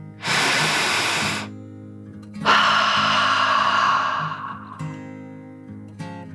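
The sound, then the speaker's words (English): A deep dragon breath in and out: a loud, airy inhale lasting about a second, a short pause, then a longer hissing exhale that slowly fades, with steady low tones underneath. “After a moment, she took another deep dragon breath in and out.”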